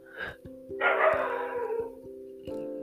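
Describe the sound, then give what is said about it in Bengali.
A dog barks at night, one short bark followed by a longer, rougher bark, over a steady humming tone that continues throughout. “Sorry for the কুকুরে চিল্লানো”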